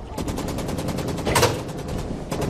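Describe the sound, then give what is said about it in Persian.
A prototype Kalashnikov rifle fires during a weapons test in rapid, evenly spaced automatic shots, a long unbroken burst of sharp cracks with one heavier report near the middle. “سازنده کلاشنیکوفم و میخوام نمونه ما آزمایش کنم. امروز اینجا فقط نمونه های اسلحه جنرال دکتیارف آزمایش میشن.”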